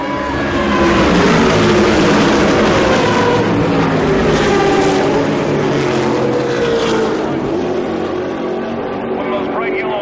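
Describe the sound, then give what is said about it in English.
Two Ferrari race cars with headlights on roar side by side, their engines a loud, continuous, shifting drone that holds throughout while a voice talks over it. “They are side by side, the two Ferraris with the headlights already on.”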